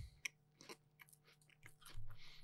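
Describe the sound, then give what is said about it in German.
Crunchy chewing of biscuits while someone snacks: a few faint, crisp bites and grinding munches, soft throughout, with no talk. “Ich esse übrigens gerade nebenbei Kekse.”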